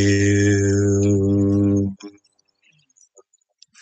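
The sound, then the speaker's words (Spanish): A single sung chant of HU, an Eckankar spiritual exercise, holds a steady, rich tone for about two seconds, then stops abruptly, leaving near silence with a few faint clicks. “Se llama el canto de Hue. La palabra Hue se escribe H-U, se pronuncia J-I-U, suena así. Hue.”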